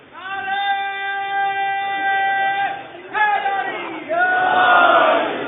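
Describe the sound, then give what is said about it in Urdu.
A crowd at a religious gathering raises a slogan chant, many voices shouting together in sustained unison phrases. A long opening call is followed by shorter, louder bursts that grow stronger toward the end. “کہیں واقعا نعرہ بلند کرنے کی ضرورت ہے، نعرہ بلند کیجیے۔”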